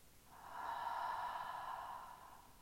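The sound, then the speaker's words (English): A deep breath during a guided meditation, drawn in through the nose and out through the mouth. It is heard as one long, soft, airy rush that swells and fades over about two seconds, faint and alone. “let's take a cool breath in through our nose and a warm breath out through our mouth.”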